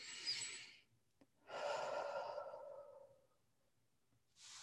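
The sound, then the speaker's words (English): Slow, deep breathing: a soft, airy draw of breath, then a longer, fuller exhale that tapers away. Another breath begins at the very end, with no talk around it. “Take a deep breath.”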